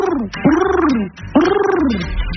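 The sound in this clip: A human voice imitating a pigeon's coo: two rolling, throaty coos, each arching up and then sliding down, with a gargling rasp and no other sound.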